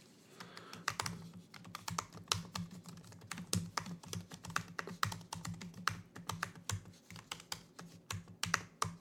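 Rapid typing on a computer keyboard while noting something down, with many quick, irregular key clicks over a low steady hum and no talk.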